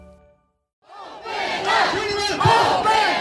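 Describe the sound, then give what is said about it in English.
A crowd of people gathered in Fresno, clamoring for businesses to reopen. After a short quiet gap, the shouting surges in and builds into a loud, sustained roar of many voices yelling together. “That's the sound of people gathering in Fresno, clamoring for the state to reopen business.”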